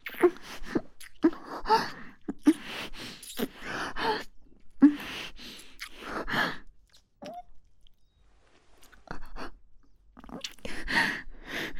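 Crying with irregular sobbing bursts, sighs and gasping breaths, loud at first, thinning into a quieter stretch midway, then rising again toward the end.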